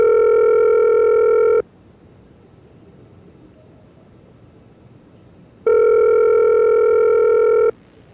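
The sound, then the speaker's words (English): Telephone ringing tone while a call is being placed: two steady, evenly pitched electronic tone bursts of about two seconds each, separated by a long silent gap with faint line hiss. “Let me see if I can dial them up.”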